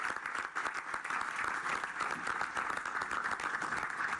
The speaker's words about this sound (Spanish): Vamos a darle un aplauso a los niños, a las niñas que nos ven.